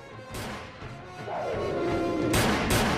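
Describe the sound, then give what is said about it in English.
A grenade thrown out of a window explodes with sharp crashing bangs, one early and two close together near the end, between them a descending whine over a rumbling background. “Joe primes a grenade. Fire in the hole! He hurls it out of the window. He's blown to the floor by the blast.”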